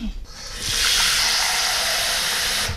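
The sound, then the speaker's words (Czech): Water pours into a cooking pot being readied to boil mushrooms. A brief splash gives way to a steady, hissing rush lasting about two seconds. “Čili já dám teďko do hrnce trochu vody,”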